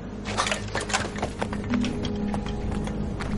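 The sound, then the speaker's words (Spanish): Hooves of horses trotting at full speed in a western film scene, a fast, busy clatter of clip-clop strikes over a steady low rumble. “Mientras los caballos trotan a toda velocidad, dejando tras de sí una nube de polvo.”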